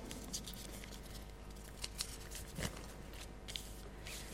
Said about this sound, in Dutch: Pak ik heel even mijn briefje erbij.